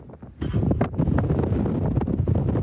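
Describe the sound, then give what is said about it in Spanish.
A strong gust of desert wind in El Paso buffets the microphone, a loud, continuous rumbling roar with brief sharper whooshes early on, steady and dense throughout. “Perdón por el sonido de esta inmensa ráfaga de viento que hemos estado en este momento. Estamos en pleno desierto aquí en El Paso.”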